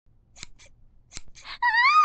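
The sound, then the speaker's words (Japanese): Scissors snipping near someone's pants in a tense drama scene: a few crisp, sharp snips separated by short pauses, then a louder rustling burst and a sustained, wavering high tone at the end. “なんでそのハサミをパンツの方へ近づけるんですか？”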